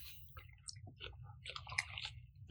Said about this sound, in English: people would rather I stop talking with half a mouthful of food, but that's not going to happen. This is delicious.